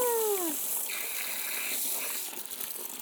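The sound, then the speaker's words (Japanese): Warm water rinsing shampoo out of hair: a steady, hissing rush of running water splashing continuously, easing off slightly near the end. No one talks over it. “そろそろお湯で流しますよ。ジャブジャブ。”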